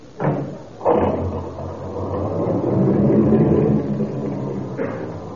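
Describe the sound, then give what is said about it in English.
A car drives slowly, a steady low engine rumble running throughout, with a few sharp thumps like doors closing near the start and one more near the end. “I see you're driving very carefully, Mr. McGee.”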